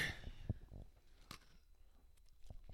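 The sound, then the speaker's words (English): Someone eats an Oreo cookie: faint, crisp bites and crunchy chewing. The soft clicks and crunches come unevenly, a few sharper ones among quieter mouth sounds. “That is just an Oreo. Tastes good.”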